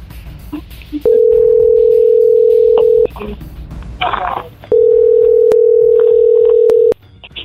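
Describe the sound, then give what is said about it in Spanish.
Telephone dial tone and dialing tones: a long steady hum-like tone, a brief burst of mixed tone bursts, then a second long steady tone that cuts off sharply, over faint background noise. “Vamos a marcar otro lado, otro lado, otro lado.”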